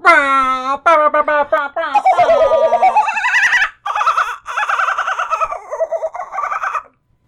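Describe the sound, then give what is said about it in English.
A human voice imitates a kookaburra call: a loud, warbling run of laughing hoots and whoops that swoop up and down in pitch, lasting about seven seconds with a short break partway through. “I'll probably splice in a regular kookaburra noise because that was bad.”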